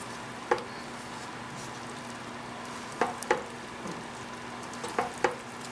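A delicate spiced dish fragrant with cloves and cinnamon sizzles steadily in a pan while it is stirred gently, with a few soft spoon scrapes and knocks rising briefly above the constant frying hiss.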